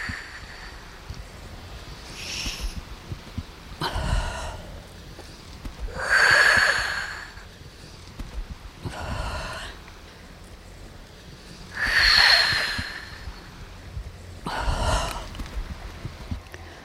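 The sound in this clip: Deep breaths in and out, taken before going into cold water for winter bathing: six airy, drawn-out breath sounds spaced at slow, fairly regular intervals over steady background noise.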